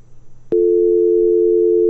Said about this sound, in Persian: فکر کنم ارتباطشم قطع شد.